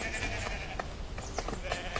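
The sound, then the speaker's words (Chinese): A flock of sheep bleats as children drive it home, with several short overlapping bleats over a steady rustling background and faint voices. “走，我们赶羊回家去。”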